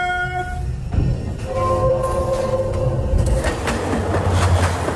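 A train rolls with a low continuous rumble and rhythmic clatter. Sustained tonal notes sound early on, and the sound stays steady and fairly loud throughout.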